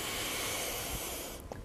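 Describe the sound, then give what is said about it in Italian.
Breath noise during a guided breathing exercise: a long, loud, airy rush of breath that fades at the end into a softer, brief breath. “espiro, inspiro, espiro, inspiro,”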